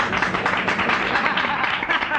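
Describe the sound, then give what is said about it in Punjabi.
Audience clapping at an event honoring artists and prize donors, a continuous, moderately loud patter of many hands clapping with voices blended in throughout. “ਮਿਹਰਬਾਨੀ ਕਰਕੇ ਤਾੜੀ ਮਾਰ ਦਿਓ।”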